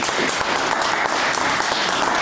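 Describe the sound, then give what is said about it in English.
A large round of applause greets the founder of a biology and medicine organisation at an event. Dense, continuous clapping holds at an even, fairly loud level from start to finish. “big round of applause, please, for the founder of Biology and Medicine, Dr. Alice Hodkinson.”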